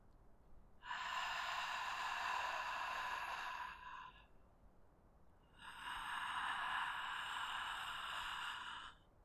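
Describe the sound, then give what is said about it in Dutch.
Breathing while whispering the letter H, including on the in-breath: two long, soft, airy hisses of about three seconds each, separated by a short quiet gap. “Kijk of je bijvoorbeeld de letter H met een fluistertoon kan uitspreken, ook tijdens het inademen. Dus zo.”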